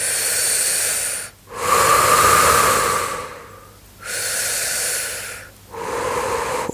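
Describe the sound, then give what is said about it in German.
Deep belly breathing: four slow, airy breaths with a soft hissing texture, each separated by a brief quiet pause, with no voice over them. “Atme wieder ein paar Mal tief in deinen Bauch hinein.”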